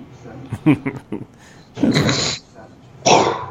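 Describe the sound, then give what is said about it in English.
A person clears their throat and coughs up phlegm: a few short, guttural throat sounds, then two longer, harsh, rasping hawks with a pause between them, loud against quiet background. “It's me getting some phlegm out.”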